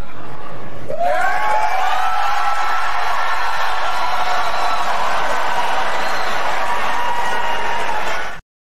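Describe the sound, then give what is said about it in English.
A Republican debate audience cheers and whoops after candidates raise their hands to pledge support. The loud, sustained roar of crowd noise starts abruptly about a second in and holds steady until it cuts off. “Six of 8 raise their hands, and the MAGA Republicans in the audience, who are cult members, cheer that on.”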